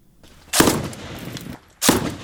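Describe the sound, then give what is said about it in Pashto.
Gunfire in street fighting between soldiers and militants in Lashkar Gah, Helmand, comes as two loud, sharp bursts about a second apart over a low rumble. “امنیتي سرتیري او وسلوال دیوال په دیوال تر کشونو کې یو پر بل ډزې کوي”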